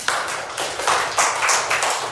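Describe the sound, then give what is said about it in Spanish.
Scattered clapping from a group applauding classmates after they state their full names. The dense, uneven claps build in a few loud surges over about two seconds. “¡Aplausos para sus compañeros!”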